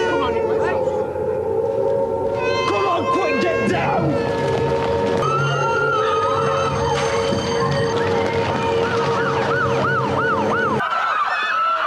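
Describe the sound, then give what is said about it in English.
A civil defence attack warning siren wails loud and continuously, with wavering, rising-and-falling tones layered over a constant droning tone that cuts off near the end. Voices talk underneath. “Attack warning Attack warning. Is it for real? Attack warning. is for bloody real.”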